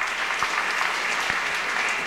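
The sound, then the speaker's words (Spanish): An audience applauds the local church choirs with steady, even clapping throughout. “También brindemos aplausos por los coros locales que han estado con nosotros en este momento, por el coro Eco Celestial.”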